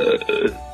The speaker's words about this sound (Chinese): 山妖小提姆呢，有的时候也会像其他的山妖一样打一个大大的嗝